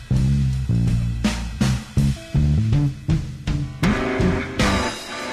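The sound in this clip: Bass guitar played in a run of deep, resonant plucked notes with sharp attacks, forming a bouncy, rhythmic line that climbs now and then to higher tones. No one speaks over it.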